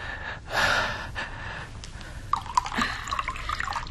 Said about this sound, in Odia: ଟିକେ ଅପେକ୍ଷା କରନ୍ତୁ, ମୁଁ ପାଣି ଆଣୁଛି।